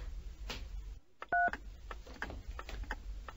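A single short touch-tone keypad beep as a telephone number is dialed, standing out from a noisy background of soft clicks and rustles.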